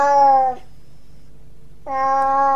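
A cat with dirty fur meows twice, two clear mid-pitched calls separated by a pause, the first falling slightly at its end, heard alone without talk.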